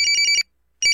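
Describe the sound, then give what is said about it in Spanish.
A telephone ringing with an electronic trilling ring: a rapid burst of four pulsing chirps, a short silence, then the ring starts again, loud and clear with no voices. “Por favor, contesta ese mendigo teléfono.”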